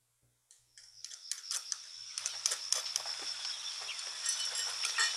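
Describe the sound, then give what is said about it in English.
A stonecutter working stone with hand tools gives many sharp, rapid taps and knocks in an irregular rhythm. A steady high-pitched tone and a low hum run underneath. “This stonecutter has been with him constantly, but now... He's cutting stone.”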